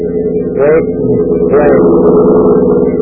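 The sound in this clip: A car engine drones steadily as a man races back to Lakeville, a low, even rumble running under loud talking voices.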